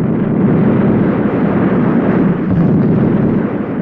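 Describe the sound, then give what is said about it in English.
The 8th Army's artillery barrage at El Alamein roars as a dense, continuous, loud rumble of overlapping blasts, with no distinct gaps between them. “The sounds you are listening to now are the sounds of the 8th Army's artillery barrage blasting open at El Alamein”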